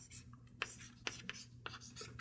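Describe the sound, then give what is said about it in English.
Scratchy handwriting as a matrix for the hydrogen atom is written down: quiet scraping strokes broken by a few sharp taps, spread unevenly across the moment. “I'm just trying to write down the matrix for the hydrogen atom sitting by itself.”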